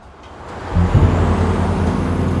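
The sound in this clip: A truck on a remote road: after a quiet start, a low, droning engine rumble swells in and holds steady, a deep humming tone under a broad wash of noise.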